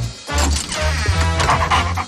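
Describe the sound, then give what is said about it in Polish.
A dog barks and yips in quick bursts over a dense, steady background of other sound, lasting about two seconds. “Co, piesku, chcesz mi coś powiedzieć?”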